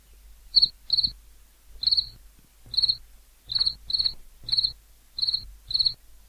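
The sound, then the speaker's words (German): A cricket chirping sound effect plays alone: nine bright, high-pitched trilled chirps come in an uneven rhythm, some close together in pairs, over a faint low hum. “Das soll eine Grille sein.”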